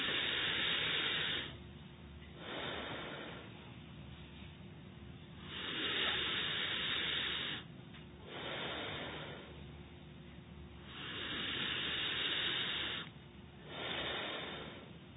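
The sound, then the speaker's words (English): Slow breathing in and out through the nostrils during a guided breathing exercise. Long, soft, airy hisses swell and fade in a steady cycle across several breaths, with quieter pauses between them. “So now, not from the mouth, from nostril, not from mouth. First inhale.”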